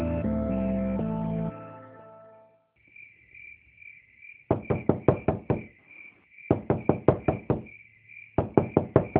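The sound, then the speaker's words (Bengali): Rapid knocking on a door from outside comes in three bursts of quick, loud raps. Steady high cricket chirping runs underneath, and music plays briefly at the start. “কেডা কেডা বাইরে থেকে দরজা ধাক্কায়”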